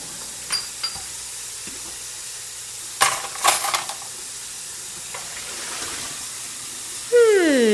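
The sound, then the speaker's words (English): Dishes are washed in a sink with the faucet running: steady water hiss under scattered clinks of crockery, with a few sharper clusters of knocks and rattles. “Something is getting washed. It's not a car. It's not a puppy. It must be dishes. That's the sound of dishes being washed in a sink with a faucet on.”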